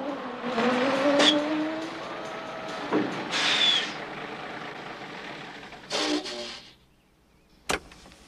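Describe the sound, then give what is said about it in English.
A truck rig turning off onto a side road at night and braking to a halt: engine rumble with a few bursts of hissing air-brake release, fading to near quiet before a brief sharp knock at the end. “turns off onto a side road and brings the truck to a halt.”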